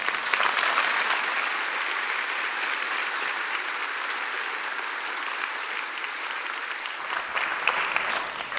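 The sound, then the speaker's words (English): Applause from a church audience welcoming Michelle Bachmann to the stage, a dense, even wash of many clapping hands sustained at a steady level for about eight seconds. “please welcome to the stage Michelle Bachmann.”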